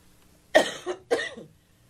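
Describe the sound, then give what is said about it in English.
A person coughs twice in quick succession: two loud, harsh bursts with a brief pause between them, followed by quiet. “excuse me, I am coughing. I apologize.”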